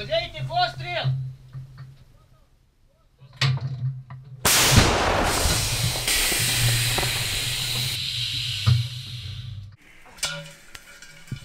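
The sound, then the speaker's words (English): A 152mm howitzer fires a shell at a Ukrainian frontline gun position: one sudden loud blast bursts into a long, rushing roar that slowly fades, with voices talking before and after. “No sooner is the shell on its way than we're told to get away from the gun position as soon as we can.”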